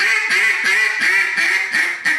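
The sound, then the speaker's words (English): Slowed-down hen duck quacks blown on a duck call, a steady series of drawn-out, nasal, raspy quacks with no gaps between them, loud and alone with no talking. “If you was to take a quack and just do a quack. Well, right there, if I slow my quack down. That's my boss hen right there.”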